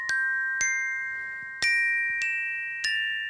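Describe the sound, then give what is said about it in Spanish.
A triangle tinkles alongside a glockenspiel in five faint, bright struck notes, each ringing on with a steady high tone. The notes come at uneven intervals, with no voices. “En la seriedad y la quietud se escuchó tímidamente el tintineo de un triángulo lo acompañó el Glockenspiel.”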